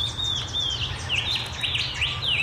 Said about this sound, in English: Well, that's confusing because that was the cuckoo.